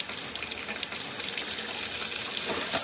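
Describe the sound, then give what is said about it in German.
Water laced with natural gas from shale drilling rushes from a running tap as a lit lighter is held to it, making a steady, broad hissing and splashing that swells slightly near the end, with no talking. “hält ein Betroffener ein brennendes Feuerzeug an einen laufenden Wasserhahn.”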